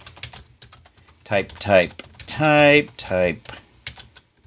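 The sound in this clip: Quick clicks of typing on a computer keyboard come in a short burst, followed by a voice speaking.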